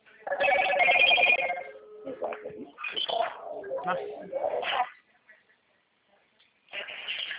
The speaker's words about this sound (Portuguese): vê se é esse que eu chamei, se eu posso ligar de vídeo